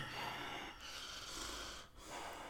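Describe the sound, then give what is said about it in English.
A voice imitates a very large person breathing heavily, with a few rasping, wheezy, snore-like breaths in a steady, noisy rhythm and only brief dips between them. “have you heard fat people breathe? Like, really big people? They're like,”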